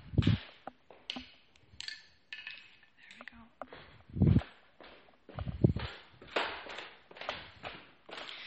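Footsteps head down to a basement while someone carries a washing basket, giving several soft, uneven thumps mixed with light clatter, all faint.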